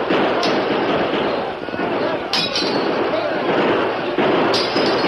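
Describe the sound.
Gunfire sound effects in a radio drama frontier battle: sharp cracks ring out at intervals over a loud, dense din of shouting and commotion.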